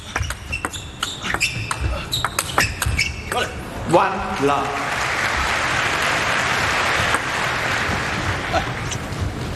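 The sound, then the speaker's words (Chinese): A table tennis ball bounces as a player prepares to serve at the opening of the first game of a top-level tournament in Japan, giving many sharp, quick ticks that give way to a sustained wash of crowd applause. “第一局比赛开始，勒布伦发球。”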